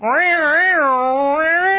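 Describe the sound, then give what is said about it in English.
A human voice imitates a dominant Siamese cat yowling, a loud, drawn-out wavering wail whose pitch undulates and dips midway before lifting slightly at the end. “the Siamese cat's on top, and I hear my cat run away. And the Siamese cat is dominant. It's sitting there”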